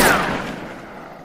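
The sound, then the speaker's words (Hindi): A single sharp gunshot fired from behind rocks during a shootout with bandits, a loud crack followed by a fading rumbling tail. “जय पत्थरों के पीछे से गोलियां चला रहा है।”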